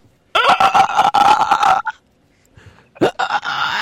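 Turkey gobbling: a loud, rapid warbling burst lasting about a second and a half, then a pause and a shorter, rougher second burst.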